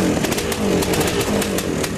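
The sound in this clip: A snowmobile engine runs at a loud, steady buzzing drone, rough and rasping and holding an even pitch throughout without a break.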